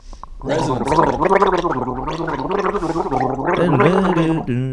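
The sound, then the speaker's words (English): A person gargles a small mouthful of liquid, giving a loud, sustained voiced gurgle with a wavering, bubbling pitch that runs almost unbroken for about four and a half seconds. “That was a gargle like no other.”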